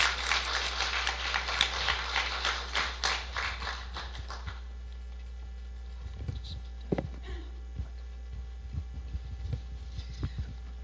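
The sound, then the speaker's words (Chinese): A small audience at a faith gathering claps to welcome a woman invited to share her story. Crisp applause lasts a few seconds, then thins to a few scattered, faint claps. “下面让我们掌声有请我们的紫花姊妹。”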